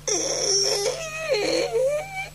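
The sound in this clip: Someone crying close by: a high, wavering sob with sliding pitch that rises and dips for a couple of seconds, continuous and fairly loud.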